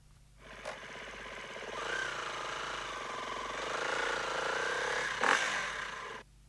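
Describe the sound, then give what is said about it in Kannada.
A motorbike being taken out, its rough engine drone holding steady for several seconds, with a brief louder burst near the end before it cuts off. “ಒಂದೇ ನಿಮಿಷ, bike ತಗೊಂಡ್ಬಿಡ್ತೀನಿ.”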